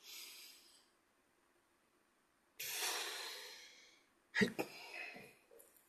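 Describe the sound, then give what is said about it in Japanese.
Deep breathing during a relaxation exercise: a short airy breath, a pause, then a long drawn-out breath followed by a sharper, snort-like puff, all fairly faint. “じゃあちょっと体をほぐしてください。よいしょ。はい、深呼吸。もう一回。”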